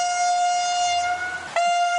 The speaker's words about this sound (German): Seit dem Wochenende werden sie nicht mehr mit diesem lieblichen Pfeifton der RB25 geweckt.